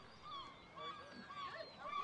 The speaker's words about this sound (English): As I step onto Appledore Island, the largest of the Isle of Shoals, I am surrounded. Seagulls are everywhere. So, as we walk around the island today, you'll see this is a gull colony,